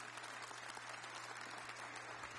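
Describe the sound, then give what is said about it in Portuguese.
Congregation applauding in church during worship singing, a faint, steady wash of many hands clapping at an even pace throughout. “cantando e aplaudindo esse Deus maravilhoso que está vivo no meio de nós.”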